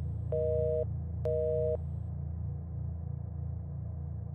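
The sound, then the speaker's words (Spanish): A phone call fails to connect, giving two steady electronic line tones separated by a short pause, followed by only a low continuous hum. “La llamada no entraba. Me mandaba directo al buzón de voz.”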